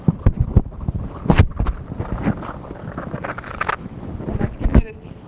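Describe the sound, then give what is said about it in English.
Barkhausen crackling from a magnetization signal fed into a loudspeaker: an irregular stream of sharp pops and crackles over a rough, hissing noise bed, with a few louder bursts scattered unevenly throughout. “So there are a lot of systems that have crackling noise in response to a slowly changing driving force. I talked about magnets. So the noise sounds something like this.”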